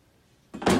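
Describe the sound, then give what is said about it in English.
A shattered glass shower door is pulled aside, giving a short, sharp scraping rush that rises in two quick surges after a brief quiet moment. “Pulling the shattered door aside”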